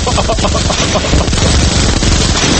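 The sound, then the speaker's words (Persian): Recorded gunfire from a Colt pistol and a sniper rifle plays back loudly. Dense, rapid reports overlap into a harsh, continuous, distorted barrage. “آقا این چیه پخش میکنی؟ کلت آقا این خوبه، این خوبه. آه این اسنایپره”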